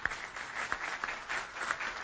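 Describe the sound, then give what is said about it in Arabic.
Faint, brief applause from an audience at a memorial tribute, greeting a fallen officer's daughter; a soft, even patter of clapping lasting about two seconds. “مرام مرحبا، صفقوا لي على مرام.”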